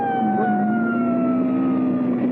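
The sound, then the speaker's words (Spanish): A police car siren sounds from close behind a vehicle. It is one loud, steady wail that slowly drops in pitch, with no other sounds. “Tenemos a un poli pegadito a nosotros. Ya está encima.”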